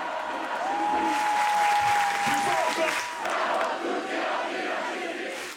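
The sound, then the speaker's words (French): A protest crowd at an evening mobilisation shouts slogans, a loud, continuous mass of voices that swells and eases slightly but keeps going throughout. “Tout au long de la soirée, la mobilisation ne faiblit pas. Entre les concerts, les prises de parole et les stands, les slogans sont scandés haut et fort.”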